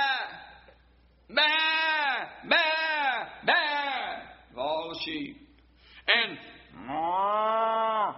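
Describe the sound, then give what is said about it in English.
Cattle lowing mixed with bleat-like calls: several drawn-out, moderately loud cries with quiet gaps between them, the last one held longest. “and the lowing of the oxen which I hear? What is all that?”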